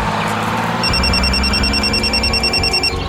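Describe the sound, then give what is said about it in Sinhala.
A mobile phone rings with a rapid, pulsing high electronic ringtone. It begins about a second in and repeats steadily for roughly two seconds over a constant low background bed. “ප්‍රසල්ගේ phone එක රින් වුණේ”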